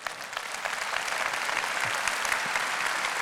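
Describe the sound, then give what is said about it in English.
A church audience applauds on Easter after a call to baptism, a dense, steady wash of clapping holding at moderate loudness throughout, with no clear voices on top. “what you're hearing when people are applauding there, what you're hearing is people saying, "Yeah, he did that for me. Did it for me."”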